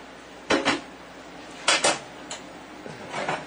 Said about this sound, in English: We've got the cooked spaghetti. I'm going to add about, 3-4 ounces of that to a bowl.